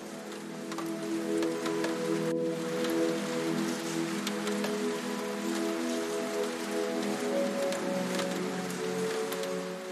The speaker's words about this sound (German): Es gibt keine Autos, keine Menschen, nur das leise, stetige Rauschen des Regens und die tiefe Stille des Buchladens.